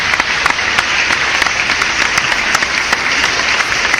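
Applause from a crowd: dense, steady clapping that stays loud throughout, with a few sharper claps standing out, and no voices.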